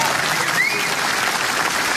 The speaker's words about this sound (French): Bravo, vous pouvez applaudir si vous voulez, mais...